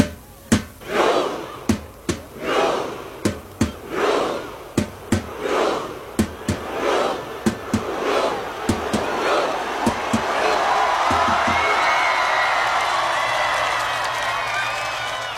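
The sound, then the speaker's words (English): Fans chant and clap in rhythm to welcome a hero alongside Crown Prince Haakon and the Norwegian royal family, doing the Viking row with flags waving. A dozen or so sharp unison claps, each with a shout, give way to a sustained crowd roar. “Under the summer sun, Crown Prince Haakon, members of the Norwegian royal family and passionate fans waved flags, chanted, and even conducted the iconic Viking row for a true hero's welcome.”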